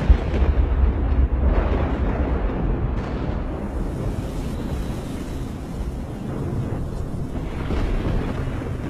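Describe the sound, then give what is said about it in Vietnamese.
Thunder rumbles deeply while heavy rain pours down in a sudden storm, a loud, continuous low roar with a dense hiss of rainfall spread over it, staying fairly steady for the whole stretch with a stronger burst at the very start. “Cũng vừa lúc trên bầu trời sấm sét nổi lên đùng đùng, cơn mưa bắt đầu trút xuống.”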